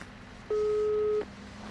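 Ringback tone of an outgoing telephone call: one steady, mid-pitched beep lasting under a second, clearly above a faint, constant background hiss.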